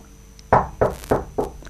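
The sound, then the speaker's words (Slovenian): Four sharp knocks on the door of a lonely old house, evenly spaced and loud, each with a short decay, following half a second of near quiet. “Potrkala je, a oglasil se ni nihče.”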